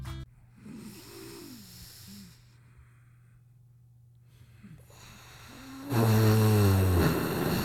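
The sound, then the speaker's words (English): Deep, audible breathing demonstrated as a stress-relief exercise: slow breaths with a steady low hum underneath, ending in a louder, rough, snore-like exhale. “you are going to breathe through your eyes like this.”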